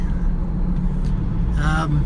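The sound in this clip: A steady low rumble of a car being driven, with road and engine noise droning evenly throughout. A man talks over it as he leaves a voicemail.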